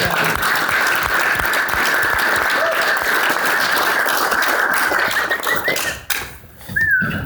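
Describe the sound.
Lively audience applause welcoming two guests, dense clapping that thins near the end before a short final burst, with a quick high whoop rising out of the crowd.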